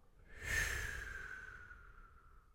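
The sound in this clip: An audible exhale during a guided meditation breathing exercise: a single breathy, sighing release that swells quickly and then tapers off slowly over about two seconds, heard on its own without talk.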